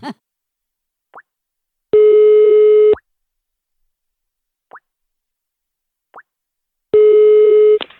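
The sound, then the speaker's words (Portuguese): Telephone tones as a call is dialed: a few short, soft clicks, then a loud, steady, low-pitched ringing tone lasting about a second, heard twice with silence between. “Eu vou ligar pra Ildis!”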